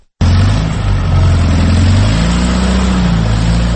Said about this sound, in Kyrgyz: Чай кайнам убакыттан бери канча айдаганына карабай калың карга тыгылган унаа ордуна такыр козголбоду.